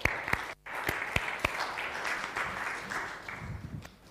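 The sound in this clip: A church audience applauds to welcome a Bible reader to the front: steady, dense clapping that lasts for several seconds, with a few sharper individual claps standing out.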